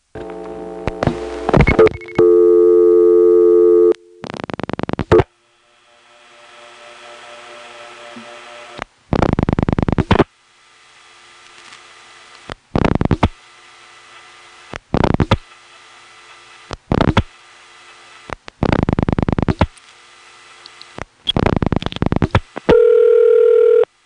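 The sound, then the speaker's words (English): Telephone call switching through a step-by-step office to an ESS Centrex intercept recording in the 8-9 office. Opening tones give way to many short, noisy switching bursts separated by silences, ending on a steady tone. “So here's a call to a Centrex intercept recording in the 8-9 office. The 8 goes to the 8-7 step, and then the second digit switches to the ESS.”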